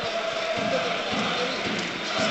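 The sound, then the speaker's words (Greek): Football stadium crowd of about 25,000 at a Panathinaikos match applauding a player taking a corner kick, a broad, steady roar of crowd noise with scattered claps and thuds. “Ο κόρνερ με τον Τζούριτσις, ο οποίος δέχεται και το χειροκρότημα από τον κόσμο που βρίσκεται εκεί.”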